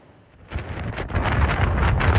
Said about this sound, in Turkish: Hindistan'da kum fırtınası hayatı felç etti.